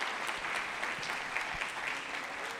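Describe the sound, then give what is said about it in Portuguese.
Applause from a church audience at a New Year's Eve worship service, a steady, even wash of many hands clapping without pause, fairly faint throughout. “eu quero mais uma vez pedir que aplaudam o Senhor”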